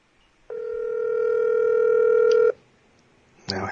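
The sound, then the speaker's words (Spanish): A WhatsApp call rings out as one steady, loud two-second tone, then silence and a short burst of noise at the end. “Déjame llamarlo otra vez. ¿Online por WhatsApp? Sí. Estoy por WhatsApp.”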